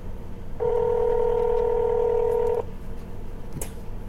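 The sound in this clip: A telephone being dialed sounds one steady two-tone beep held for about two seconds, fairly loud, followed by a brief click, with no talk.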